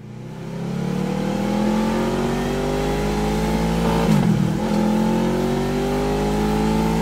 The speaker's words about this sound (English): so let's hear again that Two Brothers exhaust while we're talking about all that.